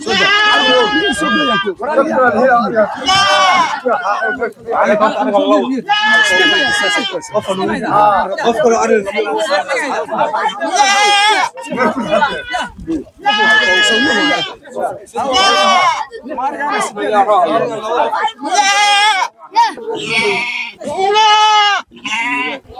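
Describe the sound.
Goats and sheep bleating at a zakat livestock distribution in Xindheere, Galgaduud, many loud, wavering cries overlapping almost without pause.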